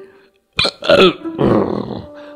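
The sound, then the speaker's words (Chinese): A long, loud burp from a full stomach, a rough, gravelly rumble from the throat that comes in a few harsh bursts before trailing off, heard alone. “红伯打了一个饱嗝”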